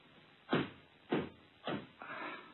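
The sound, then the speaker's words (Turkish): Knocking on a door: four dull, evenly spaced thuds, each low and short, with the last one softer and more drawn out. “Kapı çalınıyor hatun. Bir bakayım. Kimmiş gelen?”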